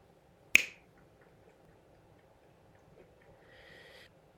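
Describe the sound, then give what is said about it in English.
A single sharp finger snap cracks out near the start, then a low, quiet background hum with a faint, brief tonal sound near the end. “When my fingers snap, you will listen and you will obey. In 3, 2, 1.”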